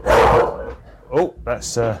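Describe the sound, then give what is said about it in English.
A bulldog barks at the front door: a few sharp, tonal yelps and barks come in short bursts after a louder, rougher opening noise. “the bulldog screaming to the front door. He's a very he's a beautiful dog. Bulldogs are a beautiful breed.”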